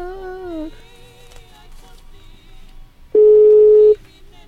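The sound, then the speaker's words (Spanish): A telephone call is dialed and connects on a radio call-in line: faint wavering tones and a low hum give way to a single loud, steady tone that holds for under a second and then stops. “para marcarle por teléfono a esta personita y esperar a que se enlace la llamada telefónica.”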